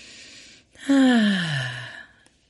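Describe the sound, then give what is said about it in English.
A person takes a deep breath in with a soft, airy inhale, then releases a longer voiced sighing exhale that falls steadily in pitch and fades. “Okay. Another deep breath in.”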